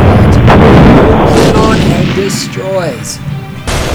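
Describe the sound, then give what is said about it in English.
A cruise missile launch and explosion sound effect: a loud, sustained roaring rumble with a few thin whistling tones sweeping through it. The roar eases slightly toward the end, then a sharp burst hits near the close. “It's the weapons platform from which I launched the cruise missile.”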